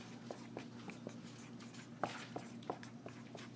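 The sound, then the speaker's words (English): Writing on a board makes faint, quiet scratching and tapping strokes, many short ticks spread irregularly over a low steady hum. “Let me write this on my board. All right, here we go.”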